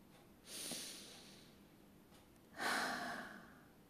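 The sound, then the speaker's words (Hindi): Two slow, deep breaths during a guided mindfulness meditation, each a soft, airy rush that swells and fades over about a second, quiet and alone. “अब एक लंबी गहरी सांस लेंगे”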